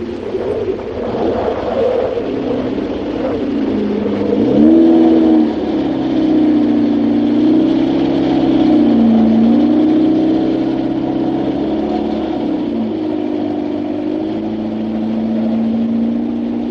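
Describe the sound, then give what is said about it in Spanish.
A car drives away with a steady mid-pitched engine hum that lasts throughout, its tone shifting a few times as the engine changes speed. The sound stays fairly loud, with no voices. “Finalmente el coche se marcha.”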